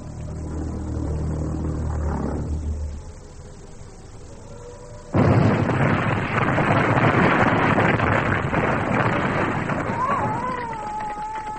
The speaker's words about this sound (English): A flying bomb.